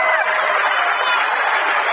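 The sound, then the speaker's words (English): Rockets basketball fans cheer in the stands during a game, a steady, broad crowd roar at constant loudness with a commentator talking over it. “Rocket fans behind us cheering.”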